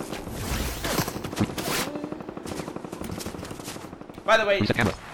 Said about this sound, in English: Stop shooting me.